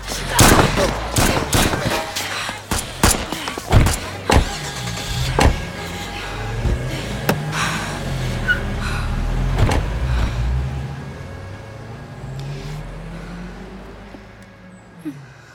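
A car's engine drones as it turns and drives toward a shop. It follows a rapid series of sharp, loud bangs and clatters, and the low hum swells, then slowly fades.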